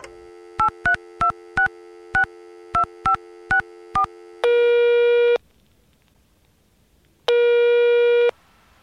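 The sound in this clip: Telephone voicemail tones: a rapid run of short keypad beeps shifting in pitch, then two long, steady, loud beeps separated by silence.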